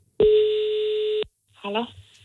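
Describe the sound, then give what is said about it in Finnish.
A telephone tone sounds as a call is placed to order pizza. One clear, steady tone lasts about a second, and after a short pause a brief voice follows. “Mutta me laitetaan nyt puhelin soimaan.”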